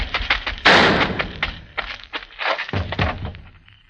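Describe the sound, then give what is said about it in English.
A single loud gunshot cracks out early in a radio drama scene as a fleeing man is shot down. Several duller thumps and knocks follow. “Sam's one clean shot dropped the fleeing Chiano in his tracks.”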